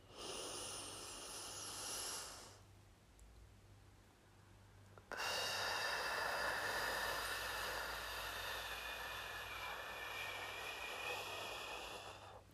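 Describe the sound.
Slow breathing in through the nose and out through the mouth, at about six breaths a minute. One airy breath lasts a few seconds, then a pause, then a longer, steady, hissing breath follows. It is faint overall, with no speech.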